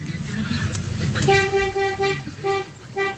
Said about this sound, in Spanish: Este pito es más grueso. Ese sí, es como de camión, ¿no? Como más como sí. de camión, a ver, a ver. Es como un de... doble troque.